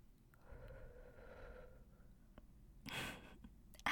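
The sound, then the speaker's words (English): A breath is exhaled close to the microphone: one soft, drawn-out exhale, then a shorter, sharper puff of air, both faint. “let me lean in close so you get a nice, good whiff of my breath.”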